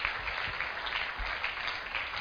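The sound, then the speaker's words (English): Congregation clapping during a church altar call: an even, continuous patter of many hands that stays at a steady level for the whole stretch, with no clear talk over it. “Keep clapping as they come out.”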